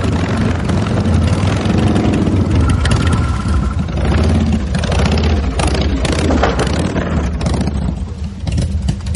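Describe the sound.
Motorcycles arriving, engines rumbling and revving in a loud, continuous roar that lasts throughout, with no pause between bikes.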